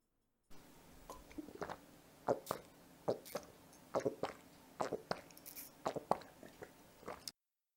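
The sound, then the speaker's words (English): Someone drinking cold milk: many soft, wet gulps and swallows in an irregular rhythm, faint overall, spread steadily across several seconds before stopping. “Here you go. Drink up. It's nice and cold.”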